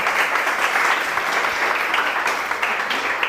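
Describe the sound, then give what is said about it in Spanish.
Audience applause greeting a guest at a meditation talk, steady dense clapping throughout with no voices over it. “Un aplauso. Por favor, gracias.”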